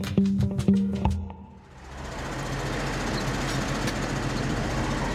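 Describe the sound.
Steady engine rumble of a farm vehicle driving to the silo slab behind a barn on a farm in Lower Saxony or Schleswig-Holstein. A few sharp clanks come first, then the engine noise holds even and broad.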